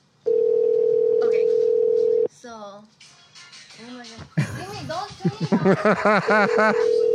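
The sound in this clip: A telephone ringing tone sounds as one long, steady, mid-pitched tone lasting about two seconds, then stops, and people start talking.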